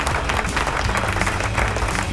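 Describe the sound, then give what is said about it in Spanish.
Canned crowd applause played as a sound effect by a host during a live rock show: dense, steady clapping with many hands, loud and unbroken throughout. “Aplauso. ¿Dónde están los aplausos? Ahí están sonando los aplausos.”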